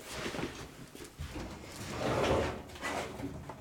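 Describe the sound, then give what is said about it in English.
A filing cabinet drawer being pulled open, a rough sliding rumble lasting a few seconds with scraping surges. “Let me open my filing cabinet.”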